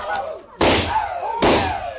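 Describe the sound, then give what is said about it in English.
Two loud, sharp gunshots from an old trapper's gun in a western radio drama set in town, about a second apart. Each is a sudden crack followed by a short, rumbling decay. “He's only got 2 shots left.”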